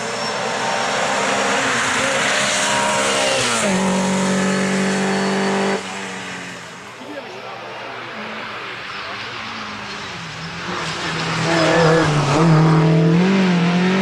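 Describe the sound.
A rare socialist-made Skoda with a straight-cut gearbox runs and revs. A harmonic engine drone swells and drops through several revs, and a louder, higher climb comes near the end.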